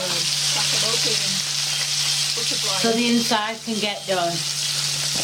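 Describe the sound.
Sausages fry in a pan with a steady, hissing sizzle that runs throughout. A low, constant hum sits underneath, and a voice speaks briefly over the frying partway through.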